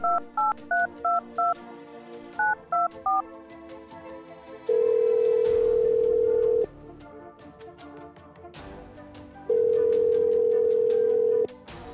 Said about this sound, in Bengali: তারপর মোবাইলে চেনা নাম্বার টিপছে